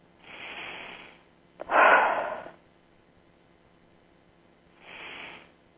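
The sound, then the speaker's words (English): A person takes deep breaths and blows out. Three breathy gusts are separated by pauses, and the middle one is the loudest and most forceful. “take a couple of deep breaths and blow out each time”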